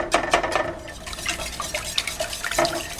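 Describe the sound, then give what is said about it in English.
Eggs being whisked fast into a mixture in a bowl: brisk, uneven scraping and sloshing strokes with a few sharper clinks, at a moderate level and with no talking. “In go 2 eggs, ideally a little bit at a time. Although sometimes they just leap out like that. There goes one. Whisked in fast so they don't cook.”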